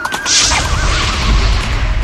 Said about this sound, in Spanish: El tercer jinete viene montado en un caballo amarillo.